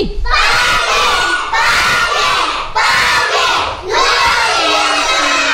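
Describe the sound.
Schoolchildren of St. Andrew shout a morning greeting in unison: a loud, sustained crowd of young voices that dips briefly a few times and swells again.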